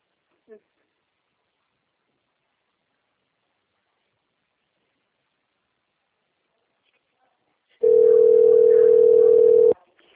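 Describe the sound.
A telephone line tone on a phone call that keeps cutting out: near silence with one tiny click early on, then a single steady, unbroken tone lasting about two seconds near the end.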